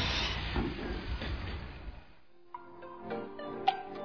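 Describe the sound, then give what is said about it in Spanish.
Underground metro train passing in Quito: a broad, fairly faint rumbling roar for about two seconds that fades out, followed by quieter scattered clanks and knocks. “¿Qué está sucediendo por debajo de mis pies? El metro está pasando.”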